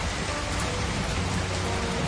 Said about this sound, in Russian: За окном дождь